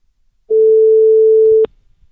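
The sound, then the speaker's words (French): A single ringback tone sounds on an outgoing telephone call. It is one long, steady, even-pitched beep lasting just over a second, and it ends with a short click. “Je l'appelle, c'est parti. Ça a sonné. Est-ce que ça sonne”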